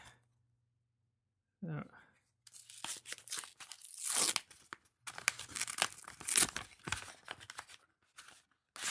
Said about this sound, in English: So, whenever you're ready, go ahead and open the envelope.